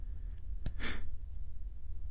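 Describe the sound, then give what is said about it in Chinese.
A single soft breath comes from someone in the adjoining toilet stall of a restroom late at night. It is a brief, breathy sigh-like exhale over a low, steady hum, with quiet before and after. “这个时候，隔壁的侧位仿佛有人的呼吸的声音。”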